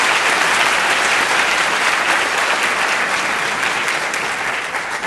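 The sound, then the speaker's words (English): Sustained applause from an audience at an evening debate event, a thick, even wall of clapping that holds steady for several seconds and eases slightly at the end. “And I would also like to invite a round of applause for Robert Rosenkrantz, whose vision makes these evenings possible.”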